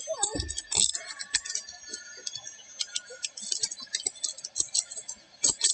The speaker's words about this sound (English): I'm going to take you out of handcuffs and I'm going to take your hoodie off, okay?